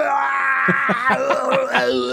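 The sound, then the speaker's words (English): A long, drawn-out groaning scream from an animated robot character, voiced by an actor. The strained tone wavers and pulses in a rough, throaty rhythm and stays loud throughout. “some of the longest drawn out Gary Chalk screams ever. It almost sounds like a bad Arnold Schwarzenegger impersonation.”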